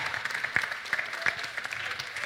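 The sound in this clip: Light, faint applause at the Mêlée Numérique 2023 pitch event thanks the control-room staff, with scattered, uneven claps and a few sharper hits standing out.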